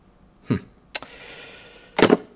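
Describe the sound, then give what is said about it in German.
Ordinary door keys on a key ring jangle with a bright metallic rattle in three short bursts, the last one the fullest, with no talk. “Ein paar Münzen und ein Schlüsselbund. Aha. Naja. Gewöhnliche Türschlüssel.”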